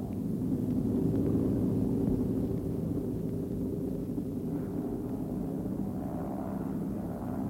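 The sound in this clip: Aircraft flying past overhead make a deep, steady droning roar that holds nearly even loudness throughout, with no talking.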